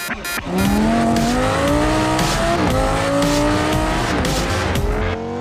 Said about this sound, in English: why don't I go for a spin round the block in the Citroën C3 that we've been talking about so much